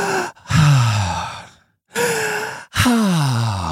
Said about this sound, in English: I can take deep breaths, bud. No yawning, no coughing, just a deep breath.